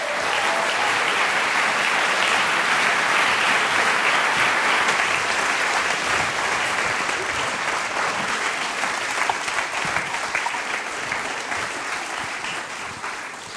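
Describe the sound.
Loud, sustained applause from an audience welcomes a guest to a talk at the Museum of the Moving Image in New York City. The clapping stays thick and even and eases slightly toward the end.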